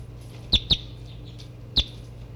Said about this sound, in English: I'm half a meter from the new birds.